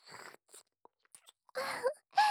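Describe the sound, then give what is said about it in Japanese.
A tongue licks an ear in close, quiet mouth sounds. A few soft, scattered wet clicks and smacks come first, then longer, moist, breathy bursts of licking. “まずは、耳の上の方から、尖らせた舌先で、いやもう、”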